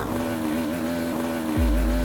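Struggling two-stroke motorbike engine with its front exhaust pipe torn from the barrel, running with little power and unable to change gear. It gives a rough, wavering drone that turns into a louder low rumble near the end.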